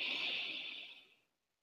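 A deep breath in fills the lungs during a guided breathing exercise. The soft, airy hiss fades away and falls silent after about a second.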